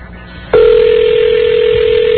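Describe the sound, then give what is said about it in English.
A telephone line on a call being dialed: after a brief moment of low background noise, a loud, steady, unbroken dial tone starts abruptly and holds at a constant pitch to the end. “I hope I'm dialing correctly.”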